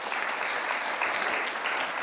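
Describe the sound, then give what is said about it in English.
A church audience claps for God during a sermon, a continuous patter of many hands at moderate loudness. “you can give God a hand clap because with Him, He's all”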